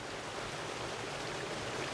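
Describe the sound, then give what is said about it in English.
A waterfall at the headwaters of a creek makes a steady, even rush of falling water, faint and unbroken throughout. “The sound you're hearing is a waterfall at the headwaters of Crooked Creek on Annie's property.”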